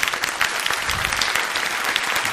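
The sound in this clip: Audience applause fills the whole stretch as a dense, steady wash of many hands clapping, with no pause and no voices standing out.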